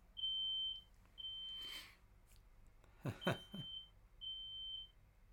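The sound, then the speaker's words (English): A household smoke alarm beeps, sounding several long, high, steady tones at regular intervals, with a few louder bursts of noise between them. “That was my smoke alarm.”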